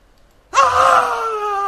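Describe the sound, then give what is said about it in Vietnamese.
A man gives a loud, raw scream that bursts in after half a second of quiet. The cry is sustained and harmonic, wavering slightly in pitch as it holds strong to the end. “Diều Thành Dương lại gào lên một tiếng”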